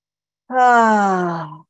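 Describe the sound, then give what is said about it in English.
A deep breath is let out as one long, voiced, sighing exhale. It starts loud and slowly falls in pitch and loudness over about a second, with no other sound around it. “Let's all just take a deep breath, shall we?”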